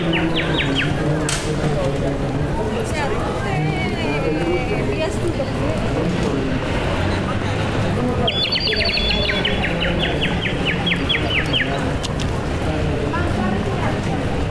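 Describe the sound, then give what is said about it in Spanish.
Birds calling at dusk: many high chirps and trills, some in rapid repeated runs, over a dense, constant bed of noise with voices. “Es la hora en que las aves vuelven al nido. Plena séptima. Sonidos de la selva.”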